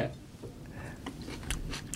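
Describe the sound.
A small whole tomato is bitten into whole, giving a few crisp, wet crunches toward the end, fairly faint over a soft background.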